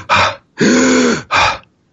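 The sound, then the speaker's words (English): A voice imitates a short gasping inhale that snaps straight back, in three harsh breathy bursts. The first and last are short; the middle is longer and voiced, with a strained, rasping tone. “It would draw in the breath and immediately it would snap back. It had no exhale staying power. So I would inhale and it would.”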